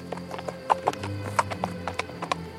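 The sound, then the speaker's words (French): A horse walks along, its hooves clip-clopping in an uneven stream of many sharp, hollow knocks at a brisk, cheerful pace. The steps stand alone, fairly faint, with a low rumble underneath. “Le cheval marchait gaiement.”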